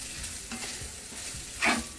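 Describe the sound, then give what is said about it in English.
The first batch of fried rice sizzles in a hot pan as it is stirred. A steady frying hiss runs throughout, with scraping stir strokes and one louder burst partway through. “So I like to fry mine in batches because it fries better, so I'll do the first half of it.”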